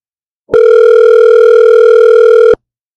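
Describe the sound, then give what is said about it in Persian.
A telephone sounds for an incoming call with one loud, steady electronic tone about two seconds long. It plays alone and starts and stops abruptly. “بذار ببینیم این دوستمون زنگ زد.”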